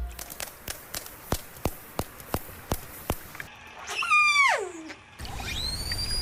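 Dolphin whistles: a loud harmonic whistle sweeping steeply down in pitch, then a second, higher tone. Before them comes a steady run of regular sharp clicks.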